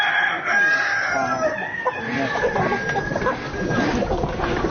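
A rooster crowing amid a flock of clucking chickens: a loud, drawn-out crow early on, then busy, overlapping clucks and calls throughout.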